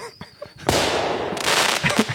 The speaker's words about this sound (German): Ich muss jetzt gleich mal hier einen Böller loslassen.